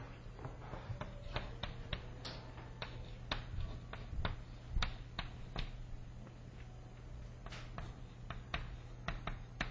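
Handwriting while equations are worked out during a physics lecture: many quick, faint scratchy strokes in irregular bursts.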